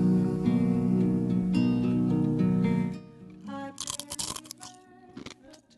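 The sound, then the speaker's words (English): Crisp, crunchy chomps as a snack is bitten right into the microphone. A few irregular bites and chewing crunches follow the fade of a music passage. “Of all the bits to bring back, we got to bring back the you chomping into the mic bit. I know it's been a while since we had a show snack.”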